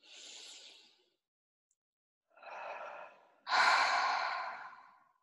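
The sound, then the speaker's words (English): Deep audible breaths during a guided breathing exercise: three breathy rushes of air with no talk, the last the loudest and longest, a full forceful exhale. “And a big exhale. You can do an audible exhale. Have a big deep breath in your own time.”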